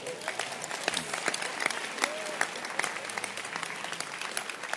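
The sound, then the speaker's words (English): An audience claps hands at a religious gathering, a steady crackle of many hands with sharp individual slaps standing out, moderately loud and continuous for several seconds, with a faint voice mixed underneath. “Can you say, can we clap our hands?”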